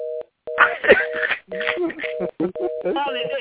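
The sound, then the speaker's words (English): Someone dials a telephone, producing several short electronic tone bursts at the same steady pitch, repeating at fairly regular intervals while a person talks over and between them. “That was somebody trying to dial somebody on the phone, I think.”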